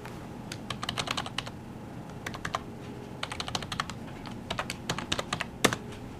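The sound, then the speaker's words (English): Rapid clicking of fingers typing on a computer keyboard, in several quick bursts of many keystrokes separated by short pauses, with one sharper, louder key strike near the end. “Let me type in.”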